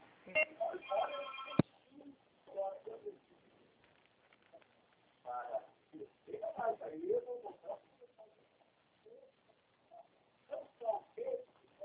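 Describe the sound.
A telephone rings while a call is transferred, one short buzzy ring burst at the very start, followed by a long stretch of people talking.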